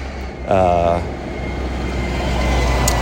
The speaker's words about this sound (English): Sorry for the noise. Truck's coming by.